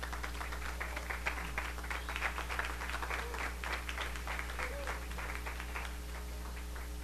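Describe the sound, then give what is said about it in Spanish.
An audience applauds a university choir at a concert: a steady wash of many hands clapping that stays fairly faint throughout, over a constant low hum. “al público asistente a Radio UV, por favor, brindémosles un aplauso grandioso al coro de la UV”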